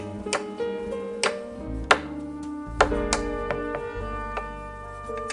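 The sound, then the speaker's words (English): A knife cuts a halved cucumber, stood on end, from top to bottom into sections. Several sharp knocks of the blade on the cutting board come at uneven intervals. “And now we'll just slice it from top to bottom. Uh, depends on how thick the cucumber is, but you can usually slice, slice it into um, six to eight sections.”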